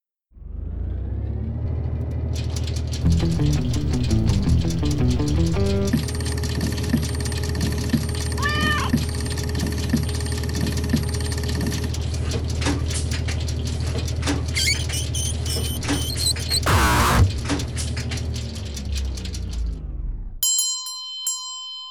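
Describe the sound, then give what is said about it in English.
A random number generator switching on: a steady mechanical hum with rattling clicks and ringing electronic tones, a sudden whooshing burst near the end, then a few short beeps after it cuts out. “So I will now turn on the random number generator.”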